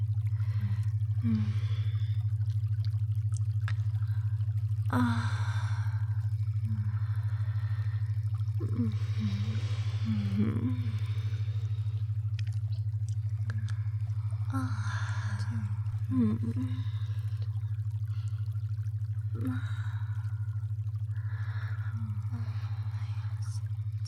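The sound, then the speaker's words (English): Person breathing deeply while relaxing, with repeated soft inhales and exhales and occasional gaspy breaths at irregular intervals over a steady low hum. “Just breathe deeply for me. Why don't we lay here for a minute? You can breathe deeply with me.”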